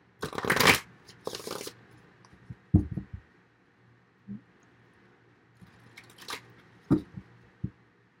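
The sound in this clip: Tarot cards being shuffled for a reading: two quick riffling bursts at the start, followed by sparse, soft taps and card handling sounds at a low level.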